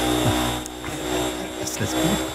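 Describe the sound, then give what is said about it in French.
A vacuum cleaner runs in the Élysée Palace with a steady whirring drone and a constant thin whine, while faint voices murmur underneath. “Arrête cet aspirateur, je n'arrive pas à me concentrer.”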